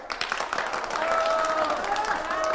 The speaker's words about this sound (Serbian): Buran aplauz!